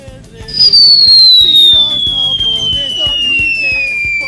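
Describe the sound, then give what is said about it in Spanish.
A long falling-bomb whistle sound effect: a loud, high, pure tone sliding steadily downward for nearly four seconds over faint rhythmic background sounds, with no blast at the end. “La bomba más larga de la historia.”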